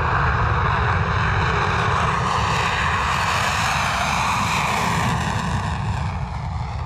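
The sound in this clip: Military aircraft during Exercise Pitch Black at night near the runway: a loud, continuous engine roar with a deep rumble and a broad hissing top, holding steady for the whole stretch.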